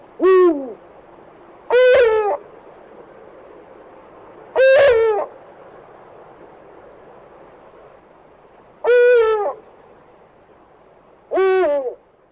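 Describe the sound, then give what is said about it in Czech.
Eagle owls, a male and female pair, hoot in a courtship-season duet, with the male's hoot deeper than the female's. Five loud, harmonic hoots come at uneven intervals over a faint steady hiss. “Slyšeli jsme společné, takzvané duetové volání samce a samice, kdy houkání samce bylo zřetelně hlubší než hlas samice.”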